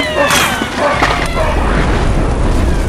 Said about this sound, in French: C'était quoi ça? Le tonnerre